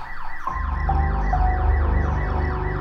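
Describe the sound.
A car alarm wails at a neighbouring house. After a short lead-in, a loud, piercing electronic siren cuts in and warbles rapidly up and down in pitch, repeating its sweeping cycle without pause.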